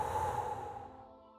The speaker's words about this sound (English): Now blow a really big breath.